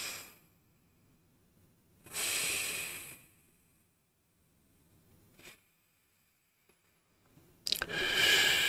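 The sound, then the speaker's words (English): Slow breathing through the nostrils during a guided meditation: a few soft, airy breaths, two long and one brief, separated by quiet pauses, faint and with no talk. “breathe at a pace so that you can hear the air flowing through your nostrils.”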